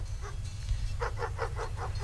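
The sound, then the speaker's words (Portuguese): Dogs barking on a farm ranch: a quick run of about six short, bright barks follows a couple of fainter ones, over a steady low hum. “O Diego tá brigando com a cachorrada”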